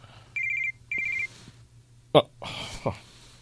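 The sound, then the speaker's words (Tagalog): A mobile phone ringtone sounds nearby in two short bursts of rapid, high-pitched trilling notes. A few thumps and a voice follow. “May cellphone na tumutunog. Parang nandito lang malapit sa akin. Saan ba nang gagaling yung tunog ng cellphone?”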